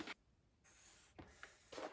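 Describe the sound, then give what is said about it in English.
Someone draws a simple triangle figure, with a few faint, scratchy strokes separated by quiet pauses. “I wish I could draw an example of this. I can try.”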